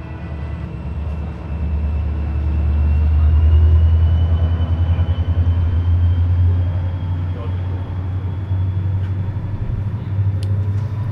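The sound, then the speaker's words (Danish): Train station ambience at Høje Taastrup station with passing trains: a continuous low rumble that swells and eases as a train goes by, with a faint steady whine above it. “Jeg står på Højtostrup station”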